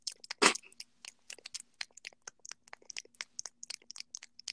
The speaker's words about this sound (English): you probably just hear me, like, chewing on my gum